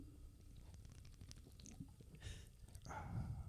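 A can of lemon-flavored Oberon beer cracked open close to the microphone: a few faint clicks and rustles, then a short hissing burst and a louder fizzing release of gas.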